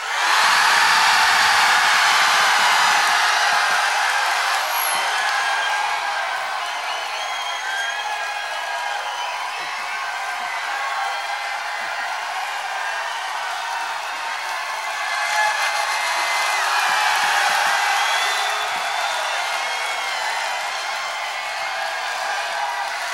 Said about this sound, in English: So will you please let the people in Europe know what an audience in San Francisco sounds like?